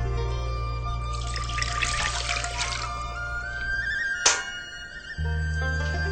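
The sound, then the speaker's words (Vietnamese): Filtered water is poured into a pot with agar seaweed, heard as a soft rushing, trickling hiss that swells in the first half and then fades over a steady background hum. “Con cho rau câu vào nồi và 1 lít nước lọc.”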